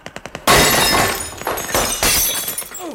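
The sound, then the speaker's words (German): Glass jars of preserves, raspberry jam among them, shattered by gunfire: a rapid string of sharp cracks gives way to a loud, sustained crash of breaking glass that rolls on for a few seconds. “Ja, ist ein Glas Himbeermarmelade auf den Kopf gefallen. Und das ganze Eingemachte haben sie zerschossen.”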